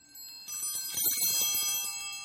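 Bells used on Sundays, kept behind a big chair, ring in a sustained shimmer of high overtones over a low jangling clatter, fairly quiet and steady.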